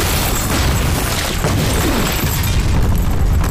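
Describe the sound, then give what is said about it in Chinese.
The loud, dense roar of a bomb explosion: a heavy rumble with broad noisy crackle that stays sustained throughout, without any clear break or separate bangs. “炸弹，小心炸弹。”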